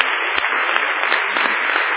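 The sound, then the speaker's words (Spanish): A church audience applauds for Jesus Christ, producing a steady, dense hiss of many hands clapping that sounds thin and muffled and stays level throughout. “Amén, amén, amén. Un aplauso a Jesucristo.”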